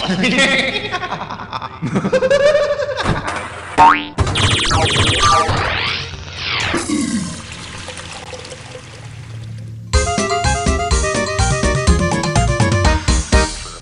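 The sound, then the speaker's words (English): A pinball video game ball launch brings a run of electronic boings and sweeping tones, including a rising-then-falling whoosh, followed by a busy, stuttering electronic jingle. “It's time to launch a ball!”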